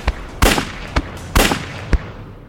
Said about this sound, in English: fired three rounds directly into my midsection.